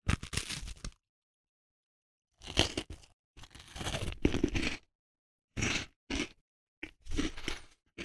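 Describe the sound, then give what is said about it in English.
A cookie being crunched: many crisp, irregular bites and crackles arrive in short bursts separated by silent pauses, fairly close and dry. “Oh, by the way, I have a cookie.”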